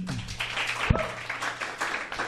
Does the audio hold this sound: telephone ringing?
no